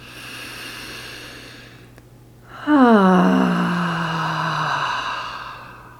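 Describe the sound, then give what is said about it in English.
An audible exhale during a relaxation breathing exercise, a long voiced sigh that falls steadily in pitch and fades, with a faint steady hum underneath. “following the inhale as you exhale, creating some sound as a pathway for energy to follow”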